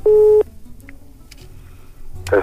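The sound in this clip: A telephone ringback tone plays while a call is being placed, heard as one steady, loud, buzzing burst of under half a second, followed by a quieter, low background hum.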